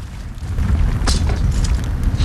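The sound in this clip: A shotgun blast in a film action scene: a sharp, bright crack rides over a heavy, low rumbling boom that swells and lingers.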